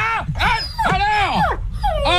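A dog gives a few loud, high-pitched yelping barks and whimpering cries, each sliding downward in pitch, in quick succession with short gaps between them.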